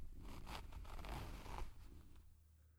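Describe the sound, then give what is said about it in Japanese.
A trouser zipper being pulled open gives a few quiet, scratchy rasping strokes spread over about two and a half seconds, with no talk. “ズボンのファスナーを開けて”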